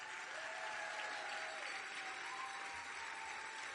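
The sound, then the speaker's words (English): An audience applauds with a dense, even wash of clapping that holds at a steady level throughout. A faint tonal hum runs underneath and no one speaks. “make a nice round of applause for Ann Gordon.”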